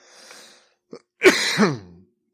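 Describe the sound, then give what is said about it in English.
A person coughing and clearing the throat: a soft breathy exhale and a short click, then a loud, rough voiced burst that trails off. “excuse the coughing.”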